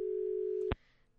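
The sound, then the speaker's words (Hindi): Telephone line tone after a dropped call: a steady mid-pitched hum that lasts under a second, is cut off by a sharp click, and gives way to faint hiss. “Line cut गया शायद.”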